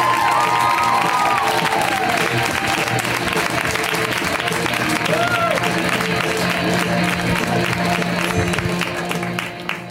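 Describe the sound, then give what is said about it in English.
Audience applause and cheering greet a stand-up comedian, a dense, sustained wash of clapping with scattered whoops that holds loudly throughout and thins at the very end. “So let's hear it right now for Beth Stelling. Give it up for Beth.”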